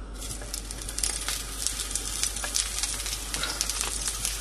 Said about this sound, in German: Und jetzt lege ich die Zucchini ein.